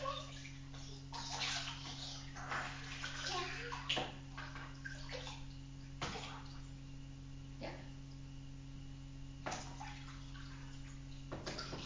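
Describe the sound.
Water sloshes and splashes in a bathtub while a child is washed, a steady wash of watery noise over a low hum, broken by a few soft knocks and splashes.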